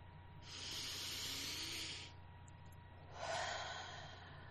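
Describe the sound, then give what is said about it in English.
Two long, deep breaths, one drawn in and one let out, each a soft, airy rush lasting a second or more, separated by a short pause with no talk. “So let's go ahead and just take a deep breath.”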